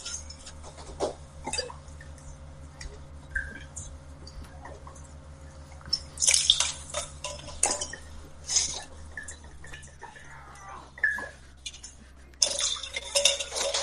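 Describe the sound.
Licor 43 liqueur being poured for a chocolate drink: thin trickling liquid and drips, several glassy clinks, and louder splashy bursts near the middle and at the end, with no voices.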